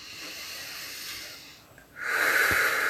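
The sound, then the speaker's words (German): A deep breath drawn into the belly during a guided breathing exercise. A soft airy breath is followed by a brief hush, then a loud, sustained hissing inhale. “Mit dem nächsten Atemzug atme ganz tief in deinen Bauch hinein und dehne ihn richtig aus.”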